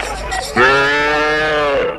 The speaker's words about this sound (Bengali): ওই তো কয়েকটা গরুর গাড়ি আসছে, কোম্পানির সিপাহীরা পাহারা দিয়ে নিয়ে যাচ্ছে